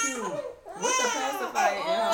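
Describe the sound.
A baby crying in high, wavering wails with babbling sounds between them over about two seconds.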